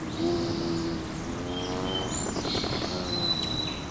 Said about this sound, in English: So set out a feeder, and before long, you may be hearing a hummingbird hovering around your watering hole.